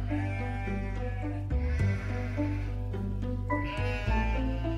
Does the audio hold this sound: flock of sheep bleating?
yes